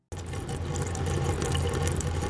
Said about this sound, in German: Was hier im Hintergrund plätschert, ist ein Trinkbrunnen im Berliner Stadtteil Friedrichshain-Kreuzberg.